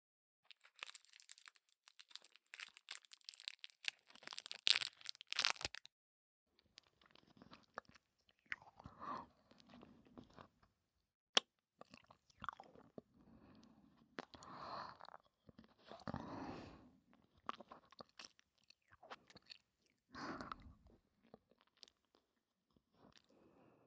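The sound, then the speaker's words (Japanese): Chewing and crunching of food, with many irregular bites, crinkles and wet mouth sounds. Some bursts are sharp and loud, others soft, spread across the whole stretch with no talking. “食べてると幸せになれるよね。”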